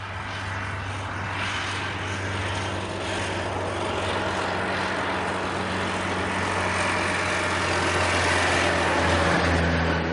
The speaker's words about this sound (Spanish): Circulan con el coche por una estrecha carretera.